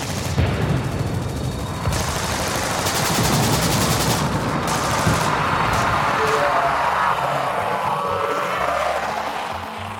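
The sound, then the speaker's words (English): Rapid, sustained gunfire aimed at alien warriors, dense overlapping shots and bursts that continue loudly without a break through the whole stretch. “don't you think you should start shooting at them?”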